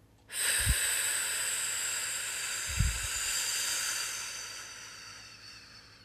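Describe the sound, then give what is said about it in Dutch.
A long exhalation on a voiceless 'f' during a breathing exercise, done without first inhaling. A steady breathy hiss begins abruptly and holds for about six seconds, gradually thinning and fading toward the end. “Dus zonder eerst in te ademen, ga je waar je nu bent uitademen op een F.”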